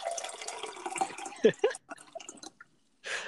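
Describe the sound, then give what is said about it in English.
Water being poured into a glass, brief splashing and trickling with a few drips, faint and broken up, with a voice briefly near the start. “Sorry, I'm pouring myself water.”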